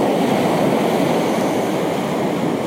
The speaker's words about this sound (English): get this picture in front of you of the waves crashing in front of you,